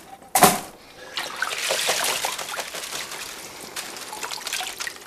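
Water trickling and dripping off a peeled item lifted out of water to drain: a brief sharp sound near the start, then a steady, fairly quiet dribble of drops lasting several seconds.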